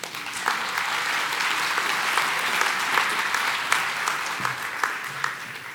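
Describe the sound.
Audience applause welcomes a speaker to a talk on inequality: steady, full clapping from many hands, sustained at an even level, with a few sharper individual claps standing out toward the end.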